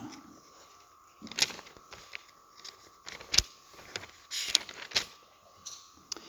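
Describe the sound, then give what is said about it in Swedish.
Pages of a Bible are flipped, giving a series of soft rustles and crisp ticks at an irregular pace over a faint steady hum. “Psalm 32, vers 2 bara som avslutning. Jag kan bläddra fram.”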